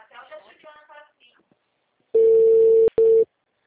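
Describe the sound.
Ringback tone on an outgoing phone call: one long, steady mid-pitched tone with a brief click-like break near its end. A short stretch of talk comes before the tone.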